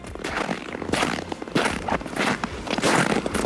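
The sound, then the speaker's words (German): Footsteps crunch through snow at an even walking pace, a few gritty crunches rising out of a soft, crackling background, with no one talking. “Na, spüren Sie schon den Schnee unter den Fußsohlen?”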